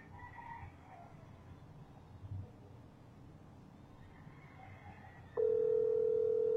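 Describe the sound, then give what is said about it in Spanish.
A video call ringing tone: a steady, mid-pitched electronic tone switches on abruptly near the end and holds unbroken to the finish, after a longer stretch of faint, low background noise. “Te pongo video llamada, a ver, voy de nuevo”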